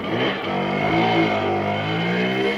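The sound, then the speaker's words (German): A Simson moped engine rattles along a road, a steady buzzing drone with a rough, revving edge that holds a fairly even pitch throughout. “damit künftig noch mehr Simsons mit 60 km/h über die Straße knattern.”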